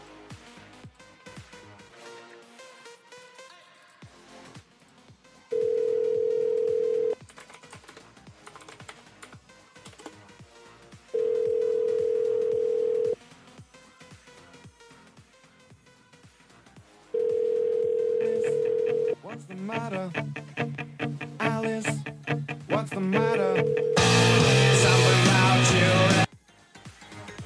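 A telephone call is dialed with a quick patter of key presses, then steady ringback tones buzz in several long, evenly spaced bursts with quiet gaps between them.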